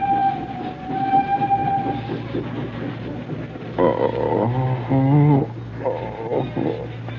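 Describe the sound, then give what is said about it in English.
A departing train rumbles and clatters, then sounds a few loud horn blasts over the steady rolling noise, one of them wavering in pitch. “The train. It's gone.”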